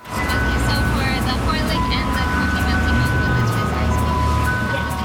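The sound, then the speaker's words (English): An ice cream truck in Richmond, British Columbia plays its jingle, steady bright melodic tones sounding continuously and loudly over a heavy low engine rumble. “the sound of summer in Richmond, British Columbia. An ice cream truck doling out cone after cone of soft serve.”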